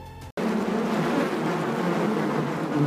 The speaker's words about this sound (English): Honeybees. We know them to be hardworking and intelligent, industriously turning nectar into honey.